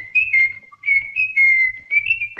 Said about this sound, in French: Je vous en prie, cessez de siffler.